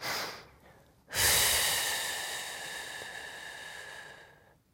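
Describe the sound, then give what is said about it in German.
A slow exhaling breath: after a short breath, one long, airy hiss pushed out steadily for about three seconds and fading gradually at the end. “Ich will, dass ihr in euch reinhört und dass ihr mal ausatmet. So ungefähr.”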